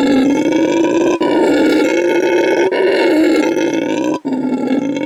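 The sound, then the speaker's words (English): A howler monkey from South or Central America lets out a loud, deep, sustained howling roar. The call is rich in harmonics and is broken by a few brief pauses, heard alone without talk. “have you ever heard of a howler monkey? It sounds a little like this.”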